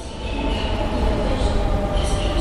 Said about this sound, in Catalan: Hi ha arribat el tren...